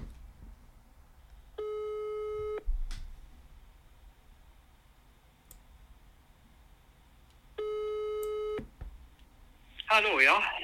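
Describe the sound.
Ringback tone heard while phoning a father: two long, steady buzzing tones, each about a second, separated by a long pause. A voice answers briefly at the end.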